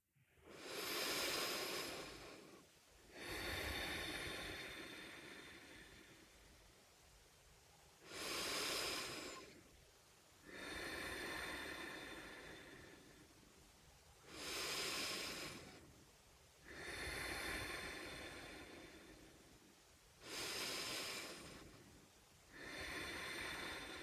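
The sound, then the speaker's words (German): Deep belly breaths in and out, about four full cycles of a short, sharp inhale followed by a longer, airy exhale, loud and steady with no voices. “nimm erstmal 5 tiefe Atemzüge in den Bauch ein und aus.”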